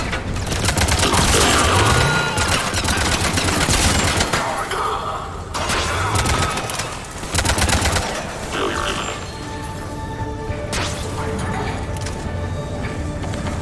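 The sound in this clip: Rapid automatic gunfire in a video game comes in three loud bursts of dense, crackling shots, with brief quieter gaps between them.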